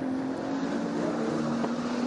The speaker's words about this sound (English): Oh, Nigel running wide there and scrabbling over the curb and a little bit more.